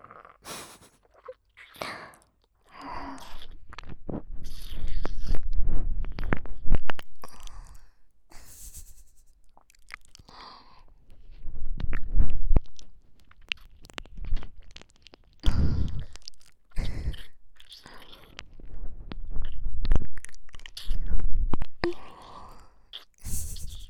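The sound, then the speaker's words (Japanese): Wet mouth sounds of fingers being licked one by one, from tip to base, and swallowed, heard as many irregular smacking and slurping bursts with soft sighing breaths and pauses between them. “お姉さんの指の先端から付け根まで、一本一本、丁寧に舐めとって、ごっくんするの。”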